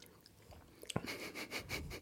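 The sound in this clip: Faint chewing of an almond cube biscuit, a rhythmic run of soft, crunchy, moist bursts that starts about halfway through after quiet low-level noise.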